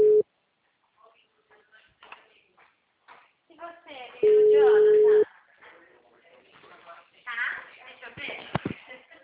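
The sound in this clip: A telephone ringback tone plays while calling a client: a steady mid-pitched tone, brief at the start and then a longer burst of about a second midway, with people talking quietly before, between and after.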